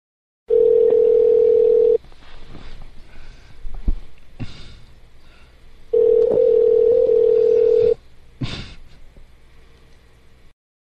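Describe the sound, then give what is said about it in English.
A telephone call rings out with two long, steady, loud ringback tones, each lasting close to two seconds, separated by a few seconds of faint line noise. “All right. We're calling Ruben.”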